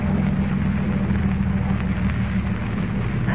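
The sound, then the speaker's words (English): A boat motor runs offshore in a channel with a steady, loud, low drone that stays even from start to finish, with no breaks and no voices. “We must work fast. Stop the motor.”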